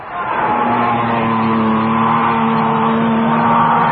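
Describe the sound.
Race cars roaring around a track as the pack comes up on the third turn of a race: a loud, steady engine drone with a buzzing, tonal whine that holds throughout, with no separate pass-by visible.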